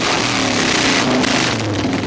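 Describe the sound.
Engine roar of a Harley-Davidson motorcycle riding onto a stage at an army base in Evansville, Indiana; a loud, steady, rumbling motor sound with slight revving that fills the whole clip.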